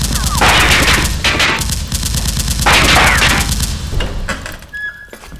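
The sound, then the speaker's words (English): Automatic gunfire in a burning building: long, loud bursts of rapid, evenly spaced shots that continue for several seconds, pause briefly, resume, and then thin out and fade toward the end. “She's shooting at me. She's shooting at me.”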